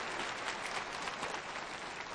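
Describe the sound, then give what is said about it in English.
A church audience applauds during a televised service. The clapping is dense, even and continuous, fairly faint, with no voices standing out. “you need to give yourselves an applause now for putting this church service on television.”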